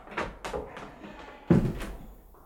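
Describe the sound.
A door opens as people hurry into a pantry: a few quick clicks and rattles, then one heavier, louder thud that fades out.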